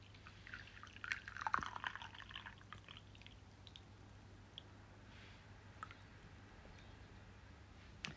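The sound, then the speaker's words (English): Tea pours faintly into a bowl, a soft liquid trickle that swells early and then thins into a few scattered drips over a low steady hum. “Just gonna pour another bowl of tea.”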